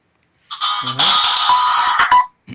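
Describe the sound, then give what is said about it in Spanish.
A mobile phone rings during a live program, playing a loud electronic melodic ringtone with layered bright tones for about two seconds. It stops abruptly and is followed by a brief, low, faint sound. “Si alguien ha sonado un móvil, no pasa nada. Cosas del directo.”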